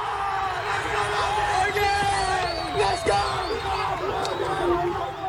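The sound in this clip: The Dutch cricket team cheers and celebrates after beating the West Indies at a World Cup qualifying tournament in Harare, Zimbabwe, with loud overlapping yells, whoops and shouting throughout.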